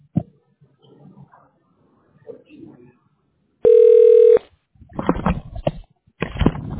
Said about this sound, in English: let me contact the licensed agents right away. There we go. Now I'm dialing the licensed agent.